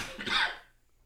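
A single sneeze, one short explosive breathy burst that peaks quickly and fades away within half a second, heard alone.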